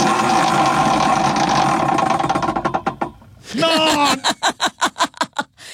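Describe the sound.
A prize wheel spun to choose a midlife crisis ticks rapidly against its pointer, then slows into widely spaced, sharp clicks as it winds down, with talk over the start.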